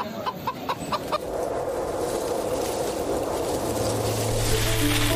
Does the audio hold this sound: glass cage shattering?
no